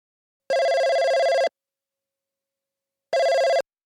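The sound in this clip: A telephone rings twice as someone calls a friend. Each ring is a steady electronic tone and the second is shorter, with a long silent pause between them.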